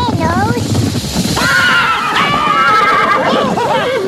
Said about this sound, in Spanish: ¿Qué fue lo que espantó mi caballo?